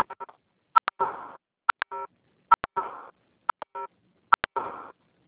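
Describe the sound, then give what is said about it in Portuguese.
A mobile phone sounds dialing tones: short, bright beeps in quick clusters mixed with brief buzzy bursts, repeating in a steady pattern every couple of seconds, with no voices. “Tem um celular fazendo barulho.”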